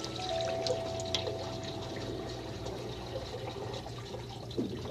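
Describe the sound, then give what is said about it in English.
Water runs from a kitchen sink faucet that has been turned on, a steady, even rush of moderate loudness that continues without a break, with no voices. “our kitchen sink is all fit. Let's turn it on and then off. On.”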